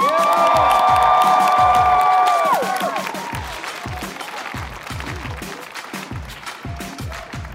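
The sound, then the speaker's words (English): A loud crowd cheers and whoops outside a courthouse before an in-person national championship celebration, with sustained shouted voices for the first few seconds, then a steady rhythmic pulsing beat under the continuing crowd noise. “He said we can't chant in the courthouse, so we gotta get the noise out now.”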